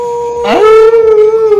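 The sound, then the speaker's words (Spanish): A wolf howl rises in a quick upward swoop, then holds a long, loud, steady tone that fades slightly toward the end. The howl is bright and strongly harmonic, with no talking. “ahora sí se oyó bien completo el aullido y todo”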